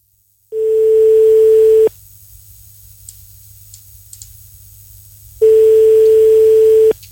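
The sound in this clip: A telephone line tone sounds while calling a pizza place: two long, steady, mid-pitched beeps separated by a pause of several seconds, with faint hiss on the line between them.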